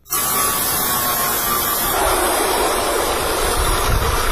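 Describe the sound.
Continuous electric buzzing of machine tools running in a village craftsman's yard in Saruu, a loud, unbroken drone whose tone shifts about halfway through.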